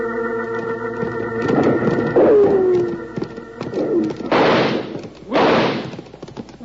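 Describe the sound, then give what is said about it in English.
Gunshots ring out in a Western-style chase on horseback: two loud, broad blasts in the second half, heard over a busy, rumbling background. “But the varmints keep shooting at us.”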